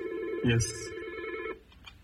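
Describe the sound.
A telephone rings with an incoming call to a radio phone-in, giving a steady, loud electronic ring that stops abruptly about halfway through and leaves a quieter tail.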